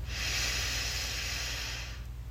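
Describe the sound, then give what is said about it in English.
A deep inhaling breath during a guided relaxation exercise: a steady, airy hiss lasting about two seconds over a low hum, then fading out. “Then, take a deep breath in.”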